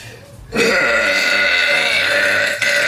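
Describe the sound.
A loud, long burp from a woman begins about half a second in and stretches for roughly two and a half seconds as a deep, rough, sustained belch, briefly dipping near the end. No speech over it.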